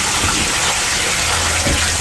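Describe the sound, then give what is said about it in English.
Water gushes from a leak in a waterproofing advert, heard as a loud, continuous rushing hiss that stays even from start to finish, with no voices. “Got water where it shouldn't be?”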